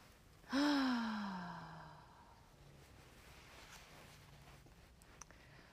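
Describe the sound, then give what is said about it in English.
A single deep breath during a guided relaxation session, loud and breathy with a voiced, sighing edge that falls in pitch and fades within about a second and a half, followed by near silence. “we're going to take some deep breaths.”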